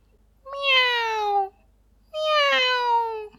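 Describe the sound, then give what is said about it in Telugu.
A kitten meows twice: two drawn-out, clear meows that each slide downward in pitch, separated by a brief pause, with no talk. “పిల్లి కూనకి తల్లి భాష దొరికింది మియా అమ్మని పాడుకుంటూ ఒక ఇంట్లోకి వెళ్ళింది”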